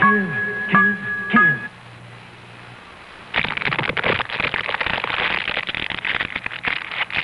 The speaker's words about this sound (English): Sound familiar? Each year, fire claims a devastating toll in human life and property.